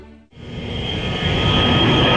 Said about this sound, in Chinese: 伴随着阵阵轰鸣声，一架架战鹰接续滑出跑道，呼啸着直冲云霄。